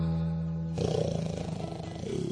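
A big cat, lion or tiger, roars: a steady low tone breaks into a loud, rough, pulsing roar that holds steady before easing slightly at the end.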